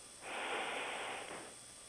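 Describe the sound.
A single deep inhale through the nose makes a long, soft, breathy hiss that swells quickly and holds steady for over a second. The breath is faint and heard alone.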